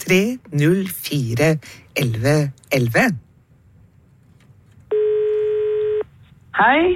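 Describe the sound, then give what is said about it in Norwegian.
A single steady electronic telephone ring tone sounds for about a second on its own, between stretches of a person talking before and after. “Og det ringer I vår jukebokstelefon”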